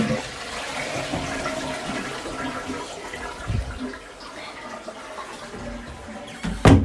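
A toilet flushes with a steady, moderately quiet rush of running water that continues for several seconds, with no talking over it.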